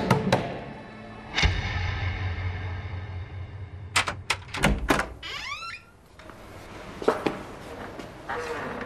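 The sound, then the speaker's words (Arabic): Knocking on a house door comes as a quick run of sharp raps, mixed with heavier thuds and other scattered background sounds. “انتي مين لتدقي باب بيتي؟”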